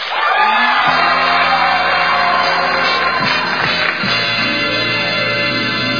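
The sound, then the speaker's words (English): Audience applause and cheering for a quiz game show, loud and sustained throughout, with whoops and shouts mixed into the clapping. “been a terrific audience, so I want you to give yourself a round of applause.”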